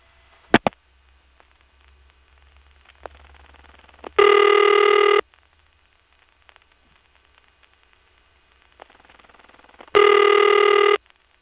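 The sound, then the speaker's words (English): A telephone line rings on a step-by-step exchange in Siler City: two loud, buzzy ring bursts about a second long and roughly six seconds apart, preceded by sharp clicks and a steady hissing line noise. “Why is it taking so long for a number in the Siler City step to ring when we call it?”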